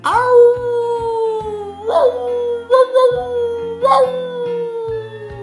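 Frightening howls from a character giving chase in a marionette puppet show, heard alone: four long, loud, tonal howls, each opening with a quick downward slide before holding a steady pitch.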